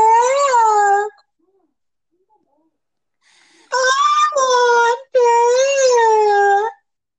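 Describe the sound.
Dogs howl in a few long, wavering, tonal howls, loud and alone, with a quiet gap between the first howl and the later ones.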